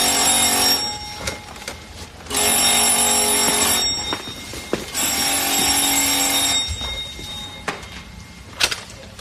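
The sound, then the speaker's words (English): An old telephone in a 1939 hotel room rings loudly, its bell sounding in three long, harsh bursts separated by short pauses, with no talking. “That was a loud telephone, too.”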